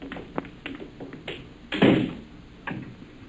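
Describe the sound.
A door is locked in an old-time radio drama: a few sharp clicks and taps, with a louder, heavier clunk partway through.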